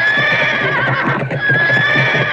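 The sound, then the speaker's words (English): A horse neighs in a loud, wavering whinny that holds for a couple of seconds with a brief dip midway, heard on its own without talk. “He played on the horse. I am a cowboy, he said.”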